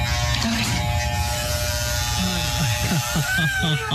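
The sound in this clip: Electric clippers buzz steadily with a constant hum while shaving a head and eyebrows. People talk over the buzzing.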